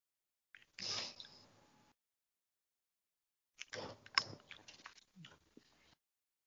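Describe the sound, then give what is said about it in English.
Someone chews Skittles candy in two separate bursts of faint, wet, crunchy chewing split by a stretch of silence; the second burst is longer and more broken up. “Somebody's eating Skittles. Tasting the rainbow, man.”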